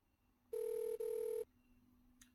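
A telephone rings with a short electronic tone, two steady beeping pulses joined by a tiny gap, loud against a quiet background that falls silent afterward.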